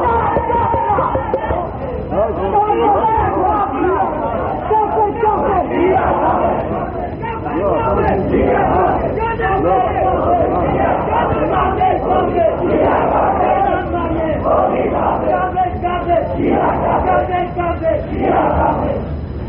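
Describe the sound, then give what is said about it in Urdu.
A large crowd chants a slogan together at a religious rally. Loud, sustained massed voices rise in repeated surges and fill the whole clip. “ہمیں یہ نعرہ لگانا چاہیے یا نہیں چاہیے؟ بلند آواز سے یہ اس نعرے کی ضرورت ہے یا نہیں ہے؟”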